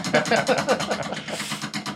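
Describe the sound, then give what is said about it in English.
A prize wheel spins with a fast, even run of sharp clicking ticks that lasts throughout, while people talk over it. “I think it's time that we spin the wheel.”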